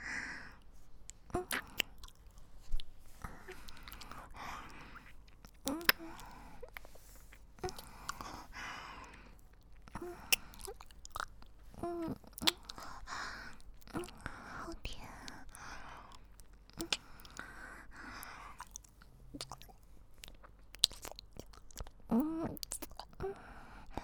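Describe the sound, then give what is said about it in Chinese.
Soft, wet chewing of grapes, with many small squelches, crunches and mouth sounds spread irregularly across about twenty-four seconds, quiet throughout, with faint whispering. “裹满了人家的饮水跟口水的葡萄，是不是格外甜啊？让我也尝尝。”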